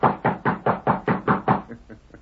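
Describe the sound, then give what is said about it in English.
Knuckles rap rapidly on a ranch house door: eight firm, evenly spaced knocks in a quick steady rhythm, then three fainter, softer taps trailing off at the end. “he rode to the Lazy Inn, dismounted, and rapped on the ranch house door.”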